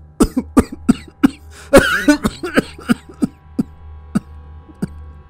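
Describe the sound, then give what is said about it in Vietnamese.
An angry father's fit of coughing: many harsh, hacking coughs in an uneven burst, with one heavier, rasping cough near the middle, loud and without speech. “Bố giận quá, lại lên cơn ho khù khụ.”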